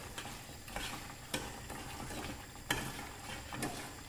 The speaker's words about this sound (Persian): یه مرحله خاصی از سفتی که رسید که با قاشقتون دارید همش میزنید، دیدید که تقریبا سفت شده